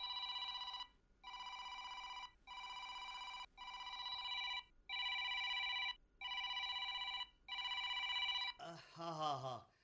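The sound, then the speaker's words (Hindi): A telephone bell rings seven times in long, steady, even-pitched bursts separated by short gaps, then a voice starts speaking. “घंटी थी वजे phone खणो”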